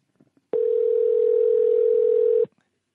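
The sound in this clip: Telephone tone heard while a call is being dialed: a few faint clicks, then one steady, even mid-pitched tone lasting about two seconds that stops abruptly.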